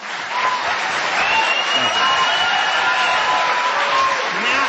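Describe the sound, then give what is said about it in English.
Applause from an audience at a library event, a thick, continuous clatter of many hands clapping at a steady, fairly loud level throughout. “now you clap. Now you clap. Where were you when we needed you?”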